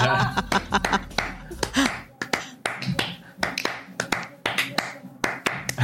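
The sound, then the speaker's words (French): Bare hands drum a quick Spanish-style rhythm, with many crisp slaps and taps in uneven, lively groupings that hold a steady pulse throughout. “Bon, alors, t'as des mains tambour. Est-ce que tu arrives à nous faire un petit truc espagnol comme ça?”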